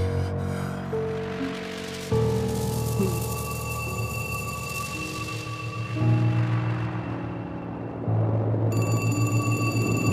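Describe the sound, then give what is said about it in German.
A telephone rings in the dark and wakes someone from sleep. The ringing is a bright, sustained electronic tone over steady droning tones, and it grows sharper near the end. “Das Telefon klingelte Clarence aus dem Schlaf.”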